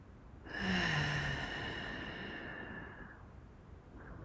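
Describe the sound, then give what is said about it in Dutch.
A deep breath drawn in during a guided relaxation exercise: one long, soft, airy inhale lasting about two and a half seconds, heard alone without talk. “En neem even een diepe teug adem. Zoals ik nu ook doe.”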